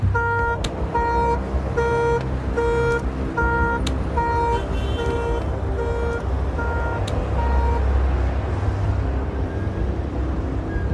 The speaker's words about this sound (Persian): سویچ بهش نمیخوره، آژیرش فعال میشه.